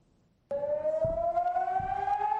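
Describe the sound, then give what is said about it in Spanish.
An air raid siren starts abruptly and wails loudly and steadily, its tone slowly climbing in pitch, sounding during a weekend of constant alerts amid fighting in the Gaza Strip and Israel. “Las alarmas antiaéreas no han dejado de sonar durante todo el fin de semana.”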